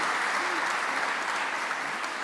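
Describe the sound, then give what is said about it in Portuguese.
Applause from an audience at a presentation: a steady, dense wash of clapping that holds at an even level for the whole stretch, with no break or clear rise or fall. “Agora vou passar a palavra com um grande aplauso para a Patrícia Costa”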